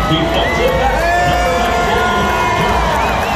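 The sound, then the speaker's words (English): A stadium crowd cheers and whoops loudly and continuously as a player runs out onto the field with his two dogs, while a public-address announcer's voice carries over the din. “everybody's cheering at that point”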